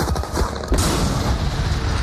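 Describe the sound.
Bombs exploding in a film trailer with urgent music, a loud, dense wall of blasts and low rumbling booms throughout, with a fresh heavy impact partway through.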